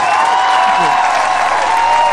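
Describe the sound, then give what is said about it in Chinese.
Audience applause for a plateau tap-dance duo at a Tibetan cultural gala. Even, continuous clapping runs throughout over a sustained tone. “真好，再次掌声送给两位。”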